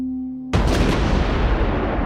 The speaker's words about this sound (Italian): la Thatcher si riprende le Falkland a colpi di cannone.